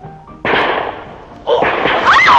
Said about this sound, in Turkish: Şarkıcı kadın birini vurdu.